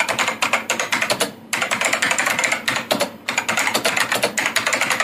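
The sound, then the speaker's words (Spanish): Rapid typing on a computer keyboard, many crisp keystrokes in quick bursts broken by two short pauses, with no voices. “Ay, pero lee en voz alta que yo quiero saber qué es lo que tanto te toca escribir.”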